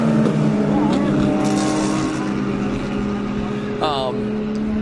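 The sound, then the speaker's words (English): Engine of a Volvo P1800 race car on a racetrack at a wide curve, a loud, steady droning roar with strong buzzing harmonics and a brief rising whine near the end as it goes past. “It's great to see Volvo take racing. There's a couple of P1800s too. Oh, Mini. Ah, there it goes, a P1800.”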